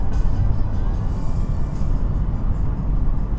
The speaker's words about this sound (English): 100 kilometers, 3,500 RPM, fourth gear into fifth.